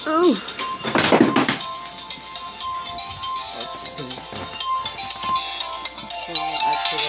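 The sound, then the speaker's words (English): A mobile phone rings with a repeating electronic tone, carrying on for several seconds beneath a person talking. “And there goes my phone again. In the middle of my podcast.”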